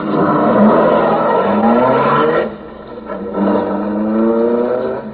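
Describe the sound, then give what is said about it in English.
A car engine runs loudly and steadily with a revving tone, eases briefly, then picks up again as the car drives off. “Hand me the steering wheel. Climb up front and start driving.”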